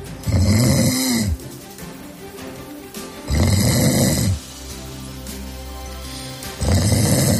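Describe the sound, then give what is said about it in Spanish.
Loud snoring: three rough, rasping snore bursts in a slow, regular rhythm, separated by quieter breathing, with the last snore cut off at the end. “Molesto para el que lo escucha, porque el que lo produce generalmente no se entera. ¿Te suena, verdad? Molesta, ¿eh? El ronquido,”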